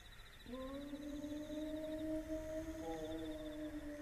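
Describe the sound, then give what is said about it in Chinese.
A person imitating a wolf howl: a faint, long, drawn-out tonal cry that starts after a brief quiet and holds a nearly steady pitch with a slight upward drift, with a second overlapping howl line joining partway through. “这是啥东西在叫？ 狼，是狼嚎。 这地方还有狼？ 嗯，要有狼就好喽，这是人学的狼叫。”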